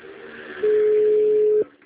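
A single steady mid-pitched telephone tone sounds while a call is placed to a client, holding for about a second over faint background noise.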